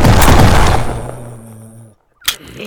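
Gunfire from a gun fired until it runs out of bullets: a loud, dense burst that gradually fades, a brief silence, then a single sharp crack.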